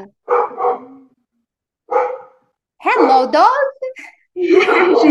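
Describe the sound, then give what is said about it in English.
A dog barks a few times in short, loud bursts with pauses between them, and then a person starts talking. “Oh, you have a dog.”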